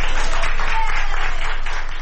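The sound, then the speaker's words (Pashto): Doctors and nurses at a hospital in Madrid, Spain, applaud a 104-year-old woman who has recovered from coronavirus. The clapping is dense and steady, fading slightly toward the end. “د اسپانیا په پلاسمینه مادرید کې ډاکټران او نرسان هغې مېرمنې ته چکچکې کوي چې تر سلو کلونو تیره ده او له کورونا رغېدلې ده.”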